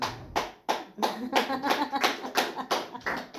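A lone person claps hands in a steady, even beat, with many sharp, loud claps evenly spaced.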